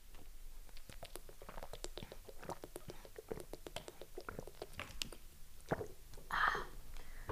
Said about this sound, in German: So, ich muss mal kurz was aus der Normalwasserflasche trinken.